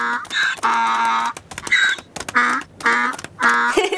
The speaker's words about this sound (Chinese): 这是非洲的企鹅。